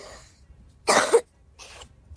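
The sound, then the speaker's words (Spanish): A person with a heavy cough coughs a few times in short, harsh bursts, loud against a quiet background with no talk. “Estoy con mucha tos.”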